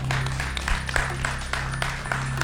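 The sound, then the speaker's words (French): Audience applause, light and loosely spaced, with separate claps standing out in an uneven rhythm over a steady low hum. “Puis bon, on peut vous applaudir en tout cas, bravo.”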